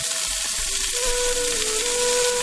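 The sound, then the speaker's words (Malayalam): Sizzling of chopped onion sautéing in oil in a pan previously used to wilt papaya, a steady, dense hiss throughout with a faint tonal hum beneath it and no talk. “ഇനി നമുക്ക് നമ്മുടെ ആ ഒരു പപ്പായ വാട്ടിയെടുത്തിട്ടുള്ള അതേ ചട്ടിയിലേക്ക്, അതേ എണ്ണയിലേക്ക് ഈ ഒരു സവാള ഇട്ടിട്ട് നന്നായിട്ടൊന്ന് വഴറ്റിയെടുക്കാം.”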